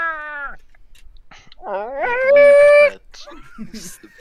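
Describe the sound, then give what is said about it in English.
A dog whining: high, tonal whimpers, first a short one falling in pitch, then after a pause a longer drawn-out whine that rises and holds steady, followed by softer fragments. “Sorry about the dog whining.”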